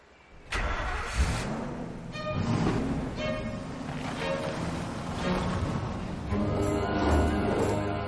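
A car engine starts abruptly and the vehicle pulls away, its mid-pitched motor revving and then rumbling on steadily, swelling in loudness a few times over about eight seconds.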